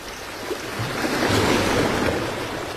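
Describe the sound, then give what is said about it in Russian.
Sea waves rush in a continuous, broad hiss that swells gently in the middle and eases again, soft and unbroken by voices. “это шумит море.”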